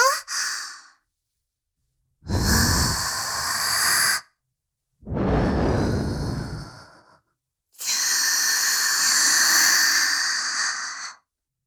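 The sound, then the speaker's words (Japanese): Soft breathy blowing into the ear, heard as four airy whooshes separated by silence. The first is short, and the last is the longest and steadiest. Each puff is gentle and hissing, with no voice. “どうだい？お耳を ふうふうってされるの。 心地よいだろ？”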